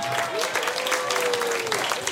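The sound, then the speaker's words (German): Audience applause after a schlager performance: a brief, steady burst of clapping that stays dense and even throughout. “Einen Applaus nochmal”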